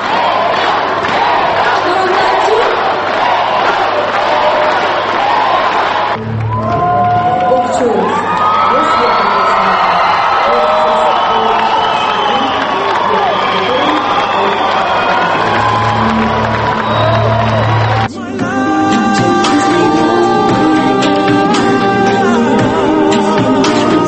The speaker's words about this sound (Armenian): Այն դահլիճում հնչող ծափահարություններից կարելի էր դատել, թե որքան լարված է պայքարը։